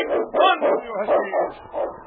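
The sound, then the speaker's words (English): A lead sled dog barks in a quick series of sharp, loud barks with short gaps between them, heard alone and fairly steady in rhythm. “It's Yukon King, swiftest and strongest lead dog of the Northwest, blazing the trail for Sergeant Preston of the Northwest Mounted Police”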